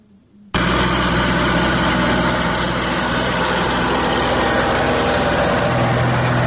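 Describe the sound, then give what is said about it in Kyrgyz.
Engine of a homemade bean-pulling harvesting machine in Talas, Kyrgyzstan, starting abruptly after a brief quiet moment and running as a loud, steady, dense drone throughout, with a low hum becoming more pronounced toward the end. “Эрлан Салжанов фасолду өзү жула турган техника жасап иштете баштады”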